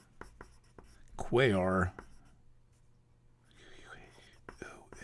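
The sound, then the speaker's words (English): A light green pencil scratching across paper while circling and writing, soft scratchy strokes, with a short stretch of voice in between. “I'm just going to put a light green circle around them and write that it's Pholus,”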